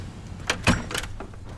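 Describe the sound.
Car doors thud shut as people climb into a car: a few brief, muffled clunks with soft rustling between them, fairly faint overall.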